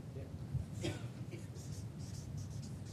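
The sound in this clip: Handwriting with a pen: faint, soft scratching strokes come and go alongside a quiet voice.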